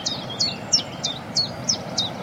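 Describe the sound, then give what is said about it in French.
A Cetti's warbler sings its two-note song as a run of loud, sharp, high notes, each a quick slurred pair, repeated at even intervals over a faint, low background hum. “Puis la bouscarde qui chante derrière nous en plus.”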